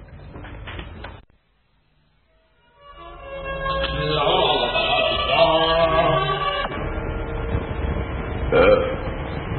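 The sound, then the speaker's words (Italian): Long, gurgling burps, crude and smelly ones, come after a short rough opening sound and a brief silence. They are loud, throaty and drawn out, with a sharper burst near the end. “Rutti fetofonici.”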